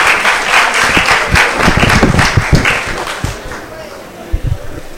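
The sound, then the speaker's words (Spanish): Audience applause for a speaker at a Catholic formation course for university students, a dense burst of clapping that is loud at first, then thins and fades, with a few scattered claps at the end. “Un aplauso.”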